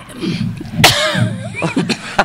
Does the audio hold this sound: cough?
yes